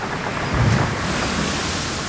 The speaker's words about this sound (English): The breakers crash. The breakers crash.